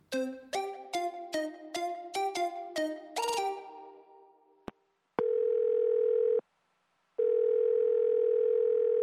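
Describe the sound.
A telephone tone sounds while a call is being placed: two long, steady, unbroken tone bursts separated by a short silence. They follow a quick run of bright chiming notes and a couple of soft clicks.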